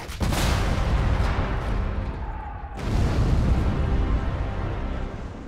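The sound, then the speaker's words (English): Heavy gunfire after an order to open fire on approaching German battleships: two loud booming blasts, each trailing into a long, rumbling roar, the second arriving about halfway through. “Suddenly, gave his men the order to open fire.”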